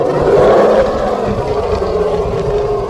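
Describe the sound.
A blue dragon with a wicked horn on its nose swoops down with a deafening roar. The roar is one long, loud, rumbling sound, sustained evenly through the whole clip with no talk.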